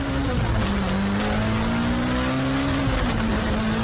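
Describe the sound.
Engine of a small car accelerating hard, a loud continuous roar with a steady mid-low droning pitch that dips briefly and climbs again, with broad rushing noise over it and no voices.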